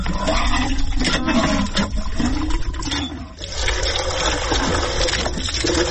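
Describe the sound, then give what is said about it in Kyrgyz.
A water pump draws water with a steady loud rushing and gurgling that runs without pause, dipping briefly midway, with no talk. “Азырынча жылуу мезгилде бул суу соргуч жакшы эле иштейт.”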